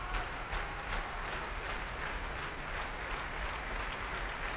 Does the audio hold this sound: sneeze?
no